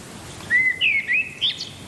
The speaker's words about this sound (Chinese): 天还未亮，鸟儿们就开始鸣叫，顺序几乎是固定的。